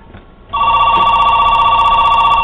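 A telephone rings loudly with a continuous high electronic trill. It starts after a short stretch of quiet and keeps ringing without pause to the end.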